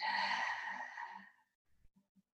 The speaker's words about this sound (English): One breath in and one breath out.